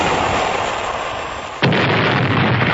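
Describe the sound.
A cannon shot sinking a ship, as a sound effect: a steady noisy rush breaks into one sharp, loud boom just past the middle, followed by a sustained heavy roar to the end.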